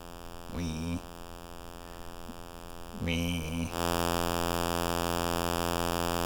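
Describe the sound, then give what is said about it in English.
Buzzy, harmonic-rich synth tone from a pseudo APC circuit: two short bursts, then a loud, steady, continuous drone that holds to the end over a constant low hum. “Okay, first we'll turn on the pseudo APC.”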